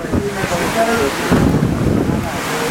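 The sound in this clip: Wind buffets the microphone beside a stormy sea, a continuous loud, rumbling roar mixed with the wash of rough surf, with a voice speaking faintly underneath.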